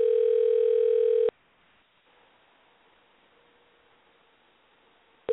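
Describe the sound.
A telephone dial tone heard while dialing a call: a steady, loud hum for just over a second, then near silence, before the tone briefly returns at the very end.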